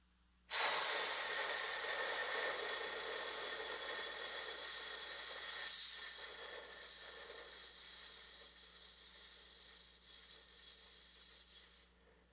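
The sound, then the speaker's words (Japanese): One slow, deliberate breath: a long airy inhale of about five seconds, then an equally long, gradually fading exhale, heard as a soft continuous hiss with nothing else around it. “5秒吸って、5秒吐く。”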